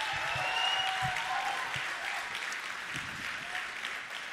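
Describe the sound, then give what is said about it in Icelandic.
Audience applause at a contest before a judging panel: steady, dense clapping that carries on without a break for the whole stretch at an even, moderate loudness. “gefum þeim gott klapp”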